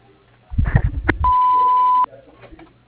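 An answering machine beep sounds as a single steady, mid-pitched electronic tone lasting under a second, after a few brief, low, rumbling sounds.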